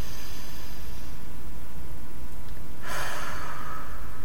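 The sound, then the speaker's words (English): A guided breathing exercise, inhaling through the nose and exhaling through the mouth, is heard as a breathy rushing exhale in the latter half over a constant background hiss. “Again, inhale through the nose, exhale through the mouth. And that felt so good, we're going to do it again. Inhale through the nose.”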